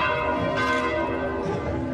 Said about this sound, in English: Church bells are ringing to celebrate Christmas at the Vatican